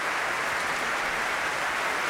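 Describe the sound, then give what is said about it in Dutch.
Concert audience applause for Ensemble Correspondance, a steady, dense wash of clapping heard on its own at moderate volume. “Opnieuw groot applaus voor dit muziekgezelschap.”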